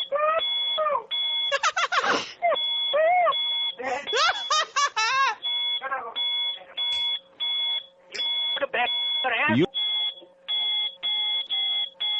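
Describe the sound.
Many short, regular, high electronic chirps from a smoke detector with low batteries repeat steadily, while voices talk and laugh over them.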